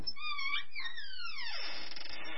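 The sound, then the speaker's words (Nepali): A young woman crying in a room as her wedding approaches: a high, wavering wail that slides steadily downward in pitch, then trails off into soft noise. “हेर्नु न नानीको बाबा कोठामा छोरी रुँदै बसेकी छ”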